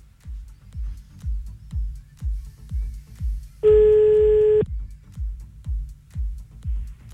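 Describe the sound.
A telephone line tone heard while calling back: a single steady beep of about one second, set against a rhythmic low thumping pulse that runs throughout.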